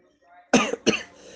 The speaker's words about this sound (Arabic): ونعتذر عن وجود السعال بيننا، إذن البرد قد نزل.